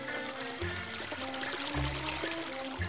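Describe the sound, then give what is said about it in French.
Fountain water flowing again: a steady, soft pouring stream with a light splashing trickle, even in level throughout. “La fontaine, de son côté, laissa à nouveau couler son eau.”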